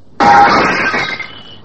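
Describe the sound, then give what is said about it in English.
A stone crashes through a department store's plate glass window. One loud, sudden shattering burst gives way to a bright, crackling tail of falling glass that fades over about a second. “From his pocket, he took a stone and sent it crashing through one of the plate glass windows.”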